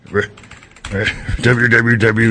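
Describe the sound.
Typing on a computer keyboard, quick light clicks at the start, then a voice talks over faint key clatter for the rest.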